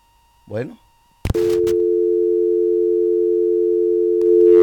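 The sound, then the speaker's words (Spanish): A telephone tone after a dropped call: a brief voice fragment, then a sharp click, then a steady, unbroken mid-pitched tone that continues loudly to the end. “parece que se le cayó la llamada”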